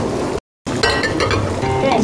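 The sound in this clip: Rice noodles sizzle in a covered pan on the stove, a steady crackling hiss with light clinks of dishes and utensils and people talking over it.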